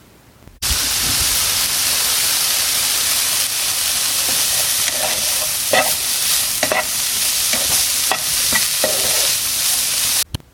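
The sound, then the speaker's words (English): Food crackles and sizzles in a frying pan: a loud, continuous hiss with scattered sharp pops and spits running steadily throughout, no voices. “There is nothing my ears like more than the sound of a good meal. The crackling of the pan,”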